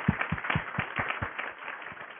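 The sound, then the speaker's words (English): Scattered audience clapping at a health-care quality meeting: a run of distinct claps, crisp at first, then thinning and fading toward the end, with no talk. “I think we should just give a round of applause for Dr. Kate Goodrich and Dr. Marcia Shari”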